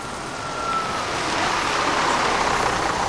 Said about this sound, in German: Da kommt auch schon ein Bus angefahren.